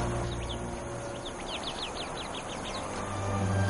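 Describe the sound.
Young birds calling together in a group: a quick run of about a dozen high, thin chirps, each dropping slightly in pitch, over a steady background hiss.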